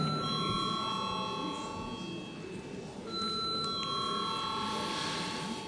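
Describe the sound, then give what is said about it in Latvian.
A bell rings to call members to a parliamentary vote, a steady, sustained ringing that holds through the whole clip with a brief change partway through. “lūdzu zvanu.”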